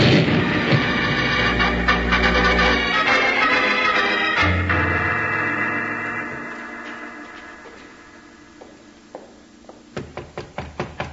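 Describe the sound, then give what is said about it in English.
A powder keg explodes in a tunnel: a loud, booming rumble mixed with swelling dramatic music that slowly fades, followed near the end by a rapid run of sharp knocks. “Jingles, that's a powder keg and the fuse is burning. Bill, it's getting short. Down, Jingles, it's going to explode.”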